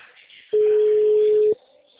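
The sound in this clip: A telephone tone sounds once: a single steady electronic beep of about one second at a fixed mid pitch, rising sharply out of faint background hiss and then stopping.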